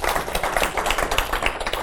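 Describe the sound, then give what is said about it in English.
A church audience clapping their hands for the Lord during a service: many quick, sharp claps run together in a dense, steady, roughly rhythmic patter, fairly loud throughout. “If you believe it, give the Lord a hand clap today. Let's warm you guys up a bit.”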